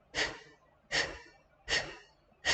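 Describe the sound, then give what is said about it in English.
Four sharp, forceful exhalations through the mouth, evenly spaced in a breathing exercise with the abdomen pulled in on each blow. The last is cut off, and each breathy burst starts hard and quickly trails away. “Abdomen is going to move in when you blow out air. So it looks like this. I'll just do a few so you can see, you can watch.”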